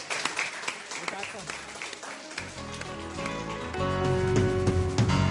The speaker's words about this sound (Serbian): I aplauz. Poezija ulazi u modu.